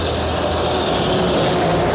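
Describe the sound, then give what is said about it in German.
Fire engine truck approaching along a street, heard as a steady, broad engine roar that swells slightly louder toward the end, with no siren. “Das ist die Feuerwehr. Da kommt die Feuerwehr.”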